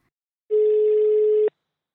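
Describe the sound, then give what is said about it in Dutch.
A telephone ringing tone plays while a call is placed: a single steady, mid-pitched tone lasting about one second, clean and alone between stretches of silence. “wilden we even bellen met de oprichter van Stem op een Vrouw, met Devika Partiman.”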